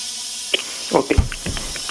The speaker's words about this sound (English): The steam's coming out now. So I just put the steam... I'll bring the steam to the parking lot, and it'll be like a steamy parking lot. Yeah, you can. I put more holes in it.